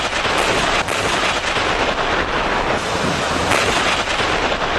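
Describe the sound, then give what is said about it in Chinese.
Strong wind and rough sea waves surround amphibious armoured combat vehicles heading out across open water, making a loud, constant roaring rush broken by a few sharper bursts. “海面风浪起伏较大”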